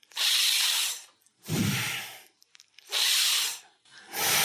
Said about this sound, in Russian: и сквозь улыбку делаем вдох. А потом делаем, закрываем зубы и делаем выдох через ноздри, одновременно сопровождая это такими движениями. Вот так вот.